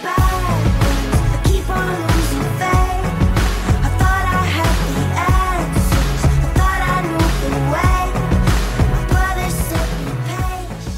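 A song plays at full, steady loudness, a layered band mix with sung vocals and a driving beat that holds throughout and eases slightly at the very end.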